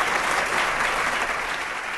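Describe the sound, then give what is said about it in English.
An audience applauds with a dense, steady wash of clapping that fills the whole two seconds and eases off slightly toward the end. “Round of applause for the Major.”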